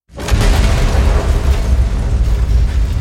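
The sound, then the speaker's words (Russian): Explosion of spilled gas: a sudden, loud blast that swells into a sustained, deep, rumbling roar for several seconds, with no voices. “В этот момент яркая вспышка взрыва скрыла от адептов хаоса приближающегося врага. Это взорвался разлитый Игнатом газ.”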